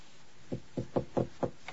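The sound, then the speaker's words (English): Knuckles knock on a closed bedroom door: five firm, evenly spaced knocks in a steady rhythm, then a fainter final tap, with no talk. “Standing over the knob, he cocks an ear, then lifts his hand to knock.”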